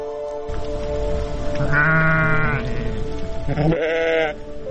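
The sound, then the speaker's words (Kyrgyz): Sheep bleat among ewes lambing on a farm, with two long, wavering, harmonic bleats standing out loudly over a steady, busy background of livestock noise. “Туу атабы койлор? 5 кой туду, бирөө эми туу отуру.”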